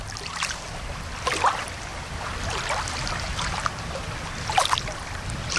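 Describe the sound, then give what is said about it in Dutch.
Gentle water at a large lake with a recreational swimming area and a small beach, on the north side of Almere, Netherlands. It is a steady soft wash with a few brighter splashy moments and no voices. “Dit zijn de Noorderplassen in eh, Almere, aan de noordkant van Almere. En eh, ja, dat is gewoon een grote eh, meer eigenlijk, waar ook een recreatieplas is.”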